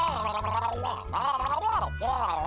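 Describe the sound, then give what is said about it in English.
Gargling: a bubbling, voiced gurgle with a wavering tone, held almost without a break and rising in a few strong surges. “I don't speak gargle. What is going on? Gargling.”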